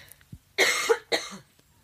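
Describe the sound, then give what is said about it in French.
A couple of coughs from a woman, short and fairly faint, each a harsh breathy burst, the first slightly longer, with quiet background between them. “Je vais tousser.”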